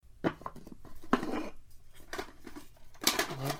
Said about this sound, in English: we might actually have to dig back into this strangely sticky box of cassette tapes and actually listen to one more